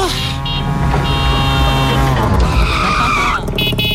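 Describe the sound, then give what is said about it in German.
A tuk-tuk drives past with a loud, continuous buzzing motor. High, squealing whines ride over it throughout, close to tire skids. “Und das Tuk-Tuk klingt ja so.”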